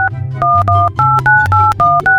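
Telephone dialing tones from a phone call being placed: a quick run of short, loud, evenly spaced two-note beeps, each tone brief and separated by short gaps, over a low steady hum.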